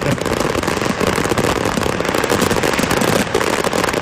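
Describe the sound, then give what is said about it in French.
Loud, dense barrage of fireworks exploding in the town of Oban, a display that went off in one rapid, intense rush. Countless overlapping bangs and crackles merge into an unbroken roar with no pauses or voices. “Moi, tu vois, ça me dérangerait pas d'avoir juste une minute de feu d'artifice. C'était aussi intense, tu sais. Rapide, mais intense”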